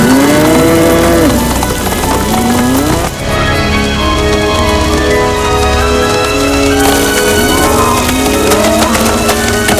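A herd of cattle moos in many overlapping calls, some drawn out and wavering, over a loud, continuous, dense din that never lets up.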